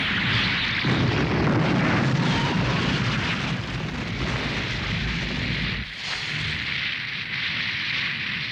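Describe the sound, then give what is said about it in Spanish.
A roaring fiery blast plays as Sailor Mars's fire attack in the Sailor Moon anime, a dense, sustained rumbling whoosh that holds loud for over eight seconds, with a brief dip near the end before surging again. “Sabiendo eso, no tendré piedad. ¡Fuego de Marte! ¡Enciéndete!”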